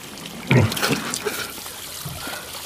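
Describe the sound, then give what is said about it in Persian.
Water runs into a sink as someone rinses their mouth: a steady hissing flow with a louder burst of splashing early on, then softer trickling and small splashes continuing to the end. “اسماعیل دهنش رو توی سینک میشوره.”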